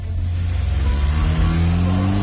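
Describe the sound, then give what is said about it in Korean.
A taxi drives off with a loud, steady engine rumble, and the engine pitch climbs gradually as it accelerates. There is no talking. “택시 문이 열리자 도도는 가방을 안에 넣고 탔다. 그리고 기사에게 영경로로 가달라고 차분하게 말했다.”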